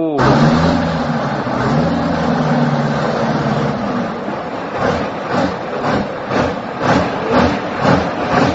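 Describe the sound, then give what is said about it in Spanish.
Engine of an ONDA company bus in Uruguay, a loud, steady low drone with a humming, harmonic rumble that turns into rhythmic pulsing surges partway through. “El motor de la onda me envían acá. Uno de los sonidos emblemáticos del Uruguay. Los camellos de la onda.”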